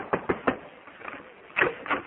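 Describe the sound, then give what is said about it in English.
Knocking on a door in an old radio comedy: a quick run of three raps, a lull with faint taps, then two more knocks. “Yeah, I'll knock on the door and see if you're ready to leave.”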